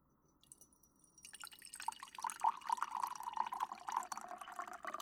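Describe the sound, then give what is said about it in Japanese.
Black tea being poured into a cup: a faint, steady trickle of liquid with small drips that starts quietly and builds into a fuller, continuous pour. No talking. “紅茶を注ぐ音ってすごく落ち着くよね。”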